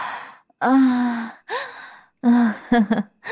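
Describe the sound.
A person gasping and struggling to catch their breath, with several loud, voiced gasps and sighing breaths separated by short pauses, the last ones coming in quick, broken catches.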